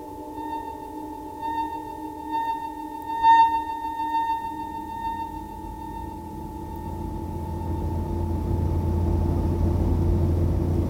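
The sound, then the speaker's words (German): A car drives along, its low engine rumble steady at first and growing louder toward the end, under a sustained electronic tone. “Er war mit seiner Frau im Auto gefahren.”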